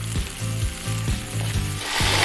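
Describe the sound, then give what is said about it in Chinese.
A fish head sizzles as it pan-fries until browned and fragrant, a steady frying hiss with a few soft low thumps recurring underneath, swelling louder toward the end. “将鱼头煎得焦香，它将带来鲜香的底味。”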